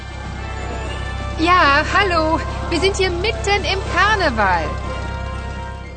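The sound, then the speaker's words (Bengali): Carnival crowd noise: several voices whoop and call with wavering, sliding pitch over a steady, dense background rumble. “দুজনেই কার্নিভালের একেবারে মাঝখানে পড়ে গেছে মনে হয় আপনারা সেটা স্পষ্টই শুনতে পাচ্ছেন”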